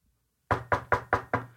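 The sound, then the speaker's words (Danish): Knocking on a door: five sharp, evenly spaced knocks, each loud and hollow with a quick decay, after a moment of silence. “Lige banket på døren”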